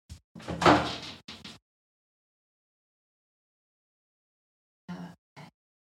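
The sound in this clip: A door opens and closes as someone leaves: a short cluster of clunks and a sliding scrape, then silence, then two brief thuds.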